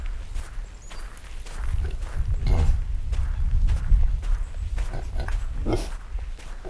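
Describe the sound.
A pig grunts softly with each step as she walks through several inches of fresh snow on a cold morning. Her low grunts recur under a steady stream of soft crunching footsteps.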